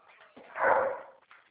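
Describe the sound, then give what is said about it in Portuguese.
Dogs barking, heard thinly over a phone line: one muffled bark swells and fades in the middle, with fainter noise before and after it. “É que tem os cachorros latindo, eu não estou conseguindo entender direito você.”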